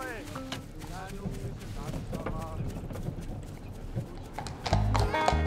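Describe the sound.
Police horses walking, their hooves clip-clopping in a steady, even rhythm of many strikes while people talk over them, with a louder low thump near the end.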